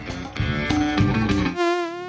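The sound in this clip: Mosquito buzzing as a high, thin whine with a wavering pitch, following a short burst of music and lasting to the end.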